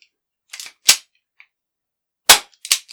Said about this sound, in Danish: Hvad er det for et håndvåben, du siger? Jamen, det er en lækker lille Beretta M9. Ja. Den gamle 9mm.